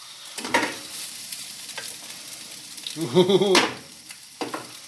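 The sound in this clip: An omelette sizzles in a frying pan, a steady crackling hiss with a few sharper scraping clicks. A short, louder burst comes near the end.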